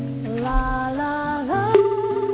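A telephone rings out during a call to a computer-school owner who is teaching; the ringback is a steady, melodic electronic tone with layered harmonics and a few pitch steps, fairly loud with no talk over it.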